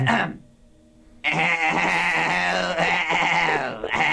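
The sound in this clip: A person imitates a sheep bleating in a barnyard-animal guessing game: a short vocal sound and a brief pause, then one long, loud, wavering bleat that runs to the end.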